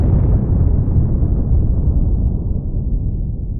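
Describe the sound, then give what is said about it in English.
An atomic bomb detonation rolls out as a deep, heavy rumble that stays loud throughout. Its brighter edge steadily dulls while the low roar lingers. “Then in 1949, the Russians detonate an atomic bomb.”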